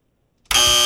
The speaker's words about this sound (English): God, that buzzer sounds aggressive.